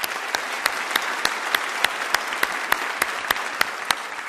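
Congregation applause welcoming missionaries at a church service: a dense, steady wash of clapping, with sharper individual claps recurring at an even beat throughout.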